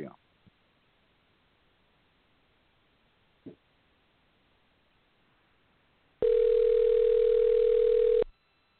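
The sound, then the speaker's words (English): A telephone rings back on an outgoing call: after a few faint clicks, one loud steady ring tone lasts about two seconds and then stops. “It's ringing.”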